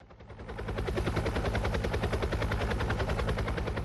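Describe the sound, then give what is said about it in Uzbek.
Rostvertol-built Russian helicopters being delivered to Venezuela make a rapid, rhythmic rotor chop that swells over the first half-second, then holds a loud, steady pulsing beat with a deep thumping drone underneath. “Bu vertolyotlar Rostvertol mahsuloti. Rossiya korxonasi ularni Venesuelaga yetkazmoqda.”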